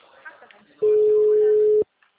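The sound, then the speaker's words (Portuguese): A telephone busy signal on a line dialed repeatedly: one sustained mid-pitched beep lasting about a second, preceded by faint background murmur and followed by silence. “Já é a terceira vez que eu tô tentando ligar. Fala que tá ocupado.”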